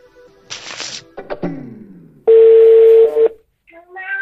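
Telephone tones as a call tries to reconnect after a stalled transmission: a few short electronic bursts and sweeping tones, then one loud steady tone lasting about a second, followed by fainter tones at the end.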